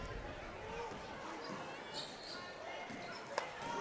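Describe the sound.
Basketball dribbling on the court during a girls' high school game between Mount Horeb and Baraboo: faint bounces under steady crowd noise and commentators talking.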